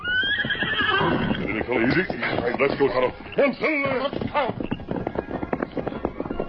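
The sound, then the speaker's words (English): A horse neighs loudly and repeatedly as riders leave a camp, followed by a run of rapid clattering hoofbeats. “As the Lone Ranger and Tonto rode away from the camp”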